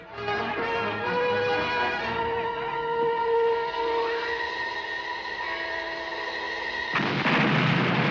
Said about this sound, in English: The guns are fired and all blow up in their gunners' faces.